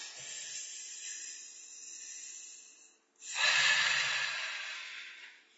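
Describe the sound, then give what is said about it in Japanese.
A deep breath taken during a calming pause. A long, airy intake of breath is followed by a brief stop, then a louder, fuller exhalation that slowly fades. “ちょっとお疲れだったので、一回深呼吸をしましょう。”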